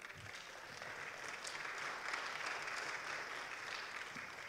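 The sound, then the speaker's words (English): Congregation applause during a Sunday service at Carl Road Baptist church, faint but sustained clapping from many people that holds at an even level through the whole stretch. “That's right. Put your hands together.”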